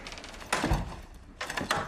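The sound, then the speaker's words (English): A motel room door opens with two muffled thuds, the first deeper and the second a brighter knock, over quiet background noise. “A door opens and lights turn on.”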